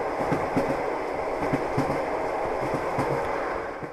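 A passenger train travels the long route to Mariupol with a steady rumbling drone and a regular clickety-clack of wheel beats running underneath, with no voices.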